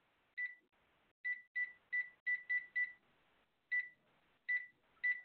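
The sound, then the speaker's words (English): Telephone keypad dialing tones sound as ten short, fairly faint beeps in an uneven pattern, some clustered quickly together and others spaced by brief pauses. “I just dialed in. And I hear the prompt.”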